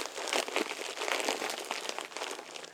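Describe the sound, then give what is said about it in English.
Plastic diaper crinkling and rustling as its tapes are fastened snugly, a steady, dense crackle that runs the whole time without a pause. “Get this diaper all taped up nice and snug.”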